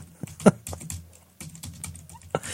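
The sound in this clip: Keyboard typing while notes are taken down: irregular clicks and taps of varying strength, a couple of sharper strikes standing out, with a brief pause in the middle and no voices.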